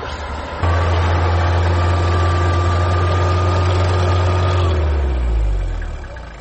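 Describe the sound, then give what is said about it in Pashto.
Vehicle engines idle in a road jammed with stalled traffic in the Tanawchi area, a steady low drone that drops in pitch and fades toward the end. “استاد شاته را په دغه سیمه کې لیدل کېږي چې زیات شمیر موټر په لاره کې بند پاتې دي.”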